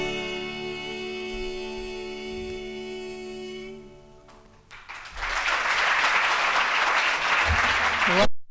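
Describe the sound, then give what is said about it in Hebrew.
An audience breaks into applause as music ends, steady dense clapping that swells and carries on for several seconds. “איזה מחיאות כפיים. כשמגיע מחיאות כפיים, מגיע.”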